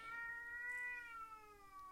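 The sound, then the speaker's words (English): A male cat meows in one long, drawn-out, tonal call that holds steady and then sinks slightly in pitch toward the end. The meow is fairly faint and heard alone, with no talking. “And that right there is my cat, Tahveli.”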